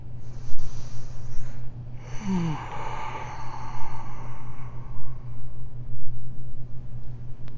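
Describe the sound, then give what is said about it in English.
Slow, deep breathing in and out during a guided exercise: soft, airy breath noise swelling and easing over several seconds above a low, steady hum. “Breath in. And out. Let that breath move freely.”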